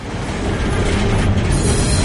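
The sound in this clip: Steady, loud rumble of a train travelling on rails, heard from aboard a night train to Bucharest, a dense continuous roar without distinct wheel clicks.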